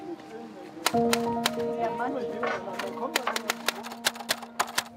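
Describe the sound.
Sharp keystroke clacks come from someone typing a poem written to order for a customer. Many quick, irregular clicks play over a faint steady hum, growing more frequent toward the end.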